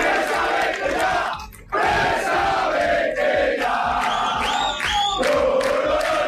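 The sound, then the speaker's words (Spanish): Rayo fans protesting at their stadium in Vallecas make a loud, continuous roar of crowd chanting and shouting. The roar dips briefly once, then surges back, with rising whistle-like tones standing out near the end. “Protestas de la afición del Rayo, concentrada ayer en el estadio”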